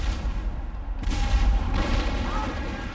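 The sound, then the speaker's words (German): A Spanish flotilla fires its cannons, producing deep, rumbling booms that blur into a continuous low roar, with a couple of sharper blasts standing out partway through. “Aber plötzlich eröffnet die spanische Flottille das Feuer.”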